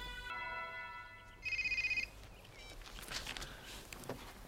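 A telephone rings faintly: a steady electronic tone, then one brief, rapidly pulsing trill, followed by soft shuffling noise.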